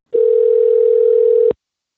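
A telephone dial tone heard while a call is placed: one steady, unbroken mid-pitched tone lasting about a second and a half. It is loud and clean, with nothing else heard, and it starts and stops abruptly.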